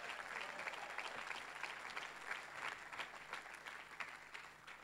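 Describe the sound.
Church audience applause welcoming a speaker onto the stage: steady, dense clapping that stays faint and even throughout.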